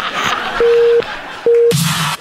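Telephone ringing tone while a call is being placed: two steady, mid-pitched tone bursts separated by a pause, the first longer than the second, over faint background noise.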